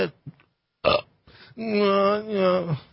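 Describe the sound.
A long, loud burp rolls out with a strained, voiced, gravelly tone and wavering pitch. It follows a few short, faint noises and a brief breathy burst.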